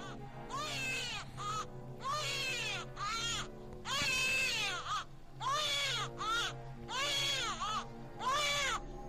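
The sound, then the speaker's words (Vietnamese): A child cries far off, a run of repeated wailing cries in steady bursts with short gaps between them, each cry sliding up and down in pitch, at a moderate level with no other sound. “bất giác ở đằng xa có tiếng khóc của trẻ con.”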